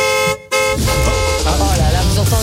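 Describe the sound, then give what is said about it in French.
Car horn honking in a radio jingle for a compact SUV giveaway: loud, sustained horn tones broken by a brief gap, then continuing under jingle music with voices. “Ça, c'est le bruit de la voiture gratuite, ça.”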